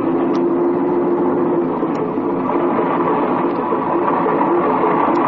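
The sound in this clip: A small airplane's engine drones as it taxis up to an aviation fuel pump. The hum is loud and constant, with a low steady tone and no breaks.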